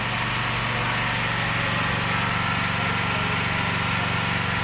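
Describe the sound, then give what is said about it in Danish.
Steady engine drone of an electric generator running on a street in Gaza: a continuous, even low hum with a fixed tone and constant loudness throughout, no voices. “Ja, altså det er lyden af en generator i Gaza, og næsten uanset hvor du går hen på gaderne i Gaza, så vil du støde på en generator.”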